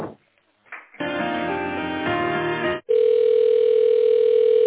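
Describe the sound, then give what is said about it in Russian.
Telephone line tones while a call is being transferred: a short burst, a pause, then a rich buzzing harmonic tone, and after a brief break a steady, loud continuous tone, with no voices. “Переведите снова на Антона Криволапова. Перевожу.”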